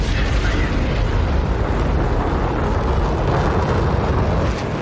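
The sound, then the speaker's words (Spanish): Rocket engine ignition and launch, a loud, dense roar that surges in and holds at full strength with a rough, rumbling texture for about five seconds, with no talk over it. “Ignición. El cohete despega.”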